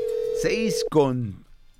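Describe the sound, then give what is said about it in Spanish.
A steady single-pitch telephone ringing tone sounds while a call is being placed, partly overlapped by a speaking voice. The tone stops and talk continues on its own. “Vamos a ver si nos recibe la llamada.”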